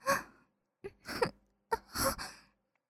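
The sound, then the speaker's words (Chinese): Soft breathing close to the listener's ear: a few quiet, sighing breaths and exhales, each rising and fading, separated by short silences, with no talk. “是喜欢我的呼吸的热气喷洒在您的耳侧吗？”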